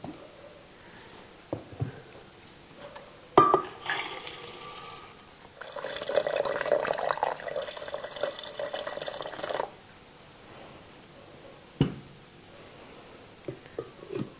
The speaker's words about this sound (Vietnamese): Đây là đỗ tương sau khi ngâm mềm và bỏ vỏ. Và bây giờ chúng ta sẽ cho máy sinh tố và xay.